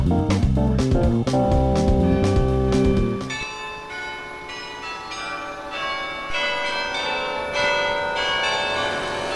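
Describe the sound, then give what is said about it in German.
Church bells strike from the tower of St. Martin's church in Bremen: a rapid run of many loud, clanging strikes, then slower strikes over a long, sustained metallic ringing that fades slightly. “Im Taz-Büro der Bremer Lokalredaktion in der Pieperstraße sind die Glockenschläge vom Turm der Martinikirche tägliche Erinnerung”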